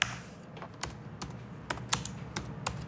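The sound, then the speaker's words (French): Quiet, irregular clicks of keys on a computer keyboard as notes are typed, a string of sharp taps with uneven gaps between them over a steady low background hum, with no voices. “J'écris tout ce qu'on s'est dit.”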